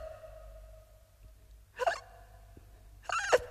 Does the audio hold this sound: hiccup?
yes